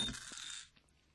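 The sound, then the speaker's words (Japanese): Dice are rolled for a game turn, making a brief rattling clatter that quickly fades to quiet within about a second. “ということでサイコロを振りましょう。”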